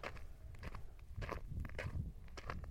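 Footsteps walking on the ground: faint, fairly steady steps repeat many times at an even walking pace, with no voices.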